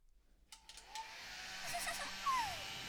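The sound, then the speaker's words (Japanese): A hair dryer switches on after a moment of quiet and blows hair dry with a steady, loud, breathy whoosh and a faint whine that holds to the end. “それじゃあ、髪乾かしますにゃ。”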